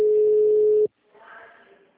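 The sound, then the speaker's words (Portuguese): Telephone ringing tone on a call placed over VoIP, a single steady mid-pitched tone lasting under a second that cuts off abruptly before a faint voice begins. “Deixa eu tentar dar um toque nessa.”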